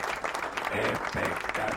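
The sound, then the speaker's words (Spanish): An applause sound effect plays as continuous dense clapping from a crowd. It is steady and fairly faint, with a voice briefly audible over it. “Tenemos los aplausos allí para aplaudir, para decirle a la gente de Davitel gracias.”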